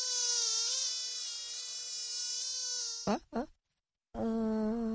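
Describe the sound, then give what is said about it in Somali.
Mosquito buzzing: a thin, high, steady whine with slight wavering. It is broken by two brief bursts and a short silence, then resumes just as loud. “Waa kaneeco, waa inaan shabaqa ka galnaa.”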